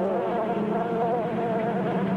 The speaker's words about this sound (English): Civil war in the hive. Annihilation. And then what? They swarm. Up they're swarming.